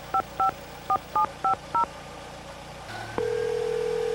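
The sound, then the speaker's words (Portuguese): Telephone keypad dialing with six short two-tone beeps in an uneven rhythm, followed by a low hum and then a steady, continuous line tone, all fairly quiet with no voices. “Vamos, vamos, vamos, Arthur. Atende”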